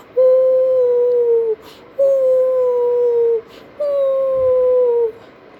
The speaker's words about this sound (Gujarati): બધા શિયાળો પેલા રડવા માંડે ને અને શિયાળ તો કેવું રડે